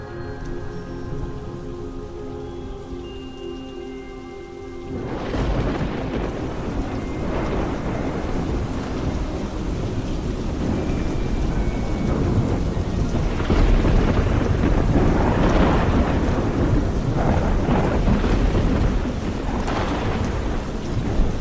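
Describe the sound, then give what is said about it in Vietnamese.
Thunderstorm with heavy rain: a steady, loud downpour runs throughout while deep thunder rumbles swell and roll several times, starting after a calmer opening with faint hum. “Sấm sét trên tầng không giáng xuống, tạo thành một kỳ cảnh cực kỳ đẹp mắt.”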